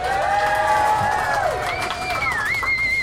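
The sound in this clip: A live audience in a clubhouse cheers and applauds, with whoops and shouts rising over continuous loud clapping throughout.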